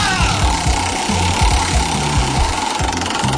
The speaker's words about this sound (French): Allez, on fait tourner la roue. 3, 2, 1.